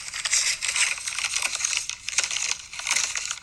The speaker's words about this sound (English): You ripping up our utility bill.